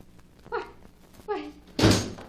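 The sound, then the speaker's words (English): A door opens late at night in answer to a knock, heard as a single loud thudding burst near the end, preceded by two brief voiced sounds. “But I opened the door and there wasn't anyone there.”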